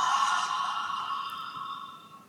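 A deep breath exhaled through the mouth as a long, breathy "ha", one continuous out-breath that starts strong and slowly fades away, heard alone without talk.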